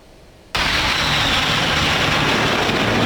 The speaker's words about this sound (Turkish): Çiğli 2. Ana Jet üssünde düzenlenen Gençlik ve Havacılık Festivali'nde gökyüzü görsel şölene sahne oldu.